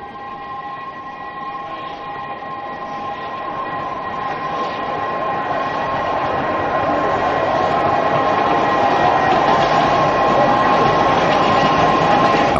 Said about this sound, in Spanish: Llega el tren.